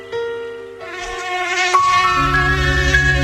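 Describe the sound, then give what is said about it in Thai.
Buzzing of an Aedes mosquito, the dengue-carrying species: a loud, steady, high whining drone rich in harmonics that carries through the whole clip. A lower droning layer joins it partway through. “แต่เสียงนี้คือสัญญาณอันตรายพาหะโรคร้ายไข้เลือดออกมาร่วมกันปกป้องคนที่คุณรักด้วยการกำจัดแหล่งเพาะพันธุ์ลูกน้ำยุงลาย”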